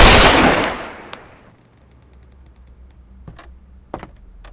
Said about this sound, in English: gunshot's a nice way to start a bank robbery. I'm sorry, it just went off.